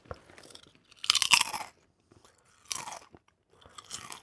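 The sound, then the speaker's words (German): Potato chips are crunched and chewed in three main bouts of crisp, crackling bites, each lasting about half a second, with brief quiet gaps and a few softer chewing sounds between them. “Erotisches Chipsknuspern”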